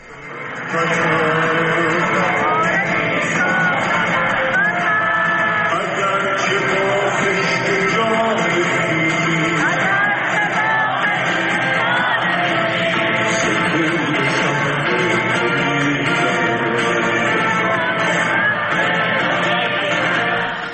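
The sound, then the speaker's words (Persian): An Iranian concert audience sings along with the singer. The crowd's voices blend with the music into a dense, continuous wash that stays loud and even throughout. “ایرانیانی که با او همخوانی میکردن در این کنسرتی که 40-50 دقیقه برگزار شد”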